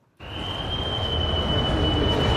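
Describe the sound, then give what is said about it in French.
Loud, steady noise fills an underground corridor leading to the tracks at the busy railway station in Bern, a continuous broad rumble with a thin high whine running across it. “Et maintenant, on est au sous-sol, dans ce couloir qui mène vers les voies. C'est beaucoup plus bruyant.”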